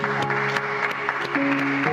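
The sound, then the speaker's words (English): Applause for a newly beatified priest at a beatification ceremony in Mexico, with dense, steady clapping over sustained held tones of music. “Un aplauso al nuevo beato. A round of applause for the new blessed.”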